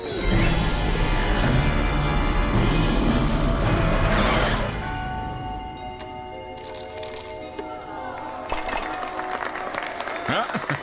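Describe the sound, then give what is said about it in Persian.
Audience applause rushes in as dense, loud clapping for the first few seconds, then drops to a quieter stretch carried by sustained tonal sounds until the end. “چرا دست میزنن؟”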